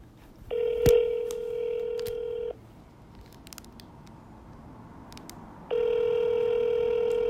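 Ringback tone of an unanswered phone call: two long, steady buzzing tones rich in harmonics, each about two seconds, separated by a pause with faint clicks; the second tone is cut off at the end.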